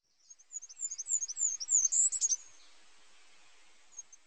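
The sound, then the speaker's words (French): A tit singing in a garden: a quick run of thin, high chirps that grows busier and louder for about two seconds, then stops, with one lone note after a short pause. “Une mésange a rompu le silence du jardin.”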